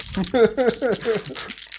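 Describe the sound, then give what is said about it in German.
Four dice are shaken and rolled during a board game, a short hard rattle and clatter with a voice speaking over it. “Du hast eine zwei gewürfelt mit deinen vier Würfeln.”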